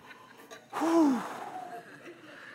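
A single sharp, voiced gasp as someone tries to catch their breath, rising suddenly from near-quiet and trailing into a softer breathy exhale.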